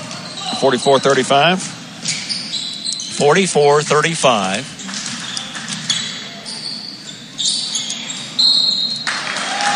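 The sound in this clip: A basketball bounces during a game with Fort Recovery in possession, many dribbles under steady commentary and crowd noise.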